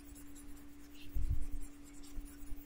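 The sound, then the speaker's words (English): An eraser rubs across a small whiteboard in a few faint, soft scrubbing strokes, heard over a steady low electrical hum. “I need to get my uh, little whiteboard doohickey back here. And uh, let's erase all these things.”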